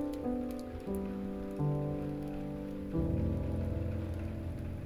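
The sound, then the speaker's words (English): Gentle rain patters softly as a steady, even hiss under sustained, slowly shifting musical tones, with the chords changing a few times across the stretch. “Let those cleansing raindrops fall upon your hips,”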